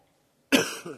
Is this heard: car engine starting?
no